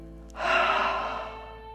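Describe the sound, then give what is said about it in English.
Deep breath during a guided meditation, breathing in through the nose and out through the mouth: a single airy breath that swells quickly, then slowly fades, heard alone without talk. “Inhale through the nose. And exhale through the mouth.”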